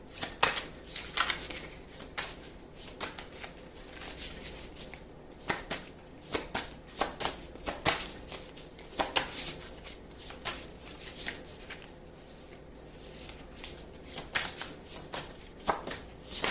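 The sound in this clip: Cards shuffled during a card reading: many crisp, papery riffling bursts and soft slaps in an irregular rhythm, fairly quiet and heard alone without talk.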